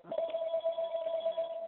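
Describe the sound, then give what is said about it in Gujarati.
A mobile phone rings during a spoken talk, sounding as a faint, continuous, warbling mid-pitched tone that carries on unbroken. “કિસકા phone બજ રહા Hai? Please can you mute.”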